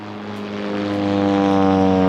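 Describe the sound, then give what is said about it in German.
An airplane flies over on its approach path into Munich airport, a loud, steady propeller drone with strong layered humming tones that grows gradually louder throughout. “Achso, das sind aber größere Maschinen. Ich meine, die können da nicht landen, oder? Ja, aber es kann trotzdem hier passieren. Wir gehören quasi zur Einflugschneise für den Münchner Flughafen.”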